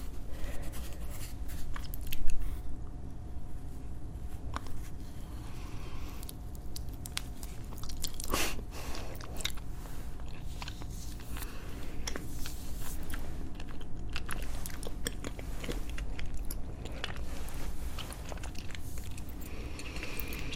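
Chewing of soft mango mochi: steady, faint, squishy mouth sounds over about twenty seconds, with one louder bite near the start.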